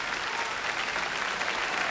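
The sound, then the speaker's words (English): A concert audience applauding the National Symphony Orchestra Ireland after an orchestral performance: a steady, dense wash of many hands clapping, even in loudness throughout, with no talk. “And what an outpouring of just joy and appreciation from the audience.”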